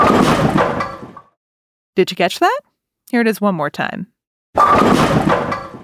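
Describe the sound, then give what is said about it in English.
Bowling pins being knocked down give a sharp, clattering crash that fades over about a second. The crash is played twice, and a voice talks between the two. “That sound was... Bowling pins!”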